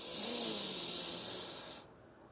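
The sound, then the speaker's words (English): A deep breath drawn in, heard as a steady, airy hiss for nearly two seconds that then cuts off abruptly. “So, breathe in”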